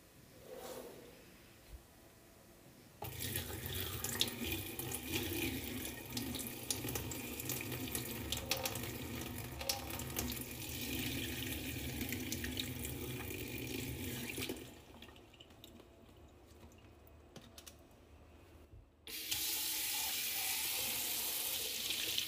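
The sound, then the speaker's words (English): Rosé wine poured down a sink drain, a steady rushing splash into the basin that starts after a short quiet stretch, softens partway through, then surges again near the end. “I'm on the verge of tears watching my favorite rosé go down the drain.”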